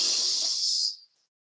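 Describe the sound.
One deep breath is drawn in through the nose during a guided breathing exercise, a soft airy hiss of about a second that tapers off into silence.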